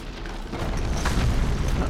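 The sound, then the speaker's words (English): Explosion as a gothic cathedral is blown up in a video game: a loud, sustained, rumbling blast with dense low-end roar that holds steady and swells slightly over two seconds. “Yeah, this classic, you know, gothic cathedral stuff. Eh, we're just blowing it up.”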